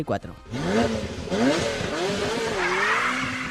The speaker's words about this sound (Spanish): Un superdeportivo, el Ferrari F40,